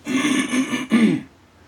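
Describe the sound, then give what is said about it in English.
Someone clears a throat thick with phlegm and mucus, a voiced, gravelly rumble pushed out in two efforts, the second shorter and sharper, then near silence. “Excuse all this motherfucking phlegm and mucus. Shouldn't have drunk that fucking milk, right?”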